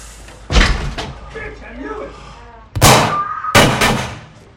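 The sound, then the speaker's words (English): A door slams open as a man bursts into a motel room: a few sharp, loud bangs with voices in between. “The man pulls out a gun, bursting into Tony's room.”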